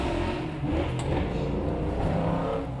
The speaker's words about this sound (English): that's a motorcycle. That's a good burnout is what that is.